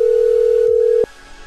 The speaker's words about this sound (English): Oh, please leave a message after the tone.